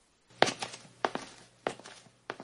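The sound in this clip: Footsteps of a person walking away, four evenly paced steps, each a soft heel-and-toe double tap with a slight scuff, fairly quiet and alone with no voices.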